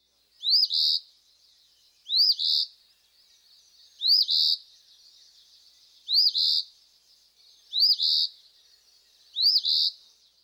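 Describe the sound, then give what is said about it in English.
An Eastern Phoebe sings six sharp, high two-part phrases at fairly even intervals of about two seconds. Each phrase is a quick rising chip followed by a buzzier burst, with silence between them. “Our next species is Eastern Phoebe. Listen to him abruptly sounding out his name.”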